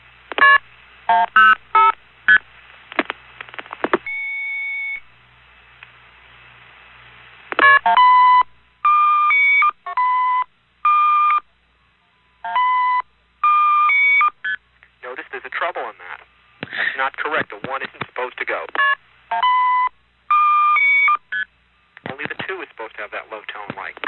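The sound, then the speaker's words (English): Touch-tone beeps ring out as a telephone number is dialed: many short, clear tones in quick irregular bursts, separated by brief pauses of silence. “What did I dial? 105. That's what I thought I dialed.”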